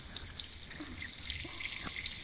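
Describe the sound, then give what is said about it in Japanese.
Shower water running at an adjusted temperature, a steady hissing spray with small splashes and drips scattered through it, quiet and unbroken by talk. “シャワーの温度は大丈夫ですか？もし熱すぎるとかぬるいとかあれば言ってくださいね。”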